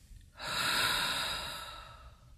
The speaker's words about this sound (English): Let's breathe together. Breathe in through your nose and out through your mouth.